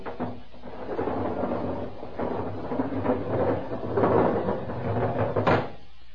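A heavy lock door opening in a lead-shielded prison chamber: a low grinding rumble that rolls and swells for several seconds, capped by a sharp clank near the end.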